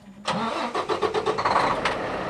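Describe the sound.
A freight truck engine runs loud and steady, kicking in abruptly after a brief quiet start, its rumble carrying a rough, pulsing texture with no voices over it.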